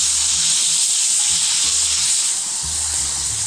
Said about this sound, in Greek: Τώρα ανακατεύουμε, όταν μείνει με το λάδι. Να το, αυτό θα δούμε, να πάρουν χρώμα.